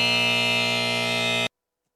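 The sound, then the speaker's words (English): A harsh, steady electronic buzzer sound effect blares at constant loudness for about one and a half seconds, then cuts off abruptly into silence. “No, wrong one. I wanted the buzzer.”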